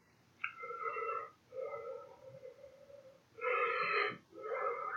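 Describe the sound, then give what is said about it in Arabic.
Deep rhythmic breathing during a Wim Hof breathing exercise, a few long drawn breaths with a wheezy, whistling tone and short pauses between them, fairly faint. “هذا تمرين التنفس ممكن يتعب الجسم برضو”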